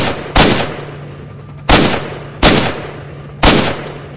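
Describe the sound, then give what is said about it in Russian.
Four loud single rifle shots are fired at charging dogs from about fifteen metres. Each is a sharp crack with a short decaying tail, and the shots come at uneven intervals over a faint steady hum. “Когда оставалось 15 метров, мы открыли огонь.”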